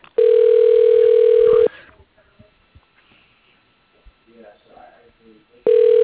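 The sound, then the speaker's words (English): A telephone line rings while a call is transferred to voicemail: a long, steady, mid-pitched tone, then a quiet gap of a few seconds with faint low noises, before the same tone starts again. “I'll put you into his voicemail. Hold on.”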